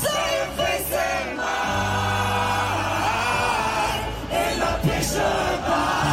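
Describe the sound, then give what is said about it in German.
A packed crowd of about 2.1 million at a beach concert roars from the front row in a dense, continuous wall of cheering, with whoops and yells rising out of the sustained noise. “Das ist proppenvoll. 2,1 Millionen Menschen. Und so klang das da in der ersten Reihe.”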